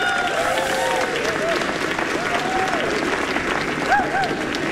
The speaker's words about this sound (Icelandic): Eigum við ekki að klappa fyrir þessu stórkostlegu tónlistamenni sem er hérna með okkur?